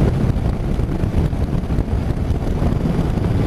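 Engine of a 2019 Honda NC750X motorcycle cruising relaxed in fifth gear, a steady low rumble blended with constant heavy wind noise, even in level throughout with no talk.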